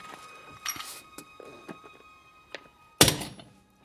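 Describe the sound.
A small unloaded cast-iron bomb is thrown and lands with one sharp, heavy thunk near the end, after a few faint knocks and clicks.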